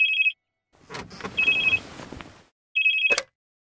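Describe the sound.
A telephone rings in three short trilling bursts, the second after a gap filled with soft rustling and handling noise, then silence once the last ring stops.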